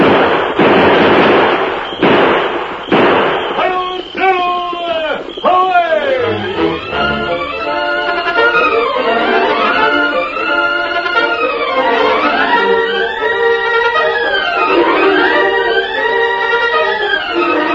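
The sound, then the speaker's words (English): Gunfire in a drama shootout: a few loud, sharp bursts crack out in quick succession at the start, then give way to voices. “Come on, Silver. Open fire.”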